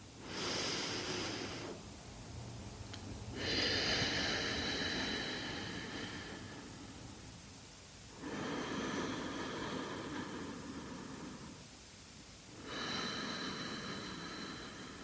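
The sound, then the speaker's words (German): Slow, deep belly breathing in a steady rhythm: four long, airy breath sounds with short quiet gaps between them, soft and breathy, with no talking. “nimm einmal einen tiefen Atemzug und schau mal, ob du bis in den Bauch reinatmen kannst und sich deine Bauchdecke hebt und wieder senkt.”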